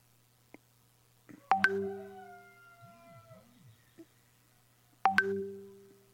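Ringing tone of an outgoing telephone call, two tonal rings a few seconds apart, each beginning sharply and slowly fading, with faint chirps in the quiet between them.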